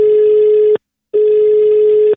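Telephone ringing tone heard on the caller's side while a call is placed: two loud, steady, buzzing tones of equal length, separated by a short silence, with no other sound.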